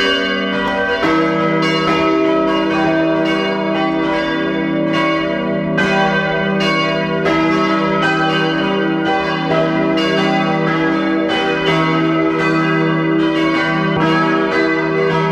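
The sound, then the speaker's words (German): Parish church bells in Riedau, Upper Austria, ring at noon. Several bells peal together in a loud, steady, overlapping clangour of many strokes, with no voices. “Es ist 12 Uhr. Sie hören die Glocken der Pfarrkirche Riedau in Oberösterreich.”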